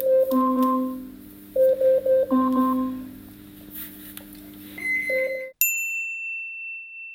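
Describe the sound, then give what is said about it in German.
Electronic chime tones from an Amazon Alexa smart speaker: short melodic chimes repeated a few times, then a brief bright single tone near the end before silence. “Das zweite Geräusch könnte... Genau, es ist Alexa.”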